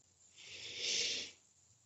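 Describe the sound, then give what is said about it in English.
A single deep breath drawn in produces a soft, airy hiss that swells gradually, peaks, and fades away, quiet and alone. “So take a deep breath in with me.”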